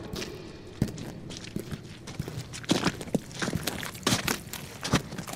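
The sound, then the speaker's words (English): Footsteps walking through a dark cave, a run of irregular thuds and scuffs with some heavier steps standing out, moderately quiet and with no voices. “Watch thy step as thou walk through the dark cave through the light.”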